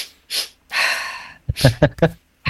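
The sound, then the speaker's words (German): A breathing exercise is demonstrated alongside a movement. A short breath and a long, forceful breath are followed by a rapid series of short, voiced puffs, and another breath starts at the end. “Das ist eine Atmung, die geht so. Und wir begleiten sie mit einer Bewegung.”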